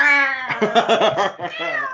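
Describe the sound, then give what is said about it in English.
A human voice imitates a cat's meow in one drawn-out, wavering, strained cry, like a caterwaul, heard alone for about two seconds. “I sound like a dying cat, but that's what it fucking sounded like.”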